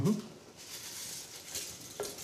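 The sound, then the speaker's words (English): Bran and tomatoes simmer and sauté in a pan with a faint, steady sizzle, a soft continuous hiss that holds level throughout after a brief knock at the start. “And we're just going to let that simmer and saute for about 5 minutes or so and let all the flavors get in there.”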